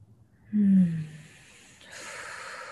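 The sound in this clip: Deep breathing as part of a relaxation exercise: a short, snort-like nasal burst is followed by a softer, steady airy breath. Both sounds are fairly faint, with no voices.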